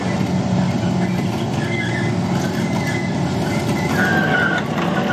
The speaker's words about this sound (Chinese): 是两个数十吨重的钢铁巨兽的连接呀、啊！请问驾驶员，这个油门踩的真的是非常的轻柔。